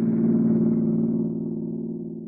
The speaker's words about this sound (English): That's a smooth running motor you have there, Mary.